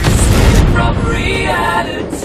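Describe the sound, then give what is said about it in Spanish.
An explosion in a dramatic action scene: a loud, deep boom that runs into a dense, sustained rumble, easing slightly after the first half second but staying heavy to the end. “¡Va a explotar!”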